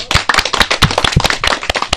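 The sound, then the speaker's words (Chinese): Crisp hand claps from a small audience welcoming a veteran singer during a live show, many sharp, distinct smacks in a quick uneven patter, loud and close together across the whole clip with no talk. “好，那我们也把掌声送给我们的祁首长，”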